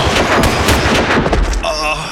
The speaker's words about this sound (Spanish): 3 soldados de fondo y 4 de frente. ¡Fila frontal! ¡Preparen! ¡Apunten! ¡Fuego!